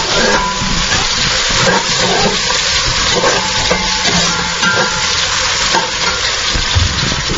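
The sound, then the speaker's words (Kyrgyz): Meat, carrot and onion frying in a cauldron as the start of a soup. A loud, steady sizzle and crackle runs throughout, with faint stirring scrapes and no voices. “Казанга азыр эт салдым, сабыз, пияз салдым.”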